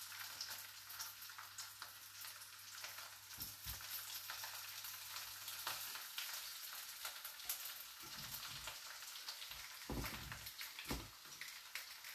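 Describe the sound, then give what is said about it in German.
Potato slices sizzle in hot oil in a pan, a steady, dense crackling hiss that runs the whole time with a few soft low bumps and no talking. “Und die braten wir jetzt einfach mal von beiden Seiten jeweils 5 Minuten an.”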